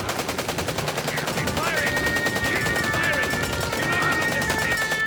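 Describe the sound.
Rapid automatic gunfire as a sound effect in a Doctor Who audio drama, a loud, steady rattle of shots running unbroken for several seconds.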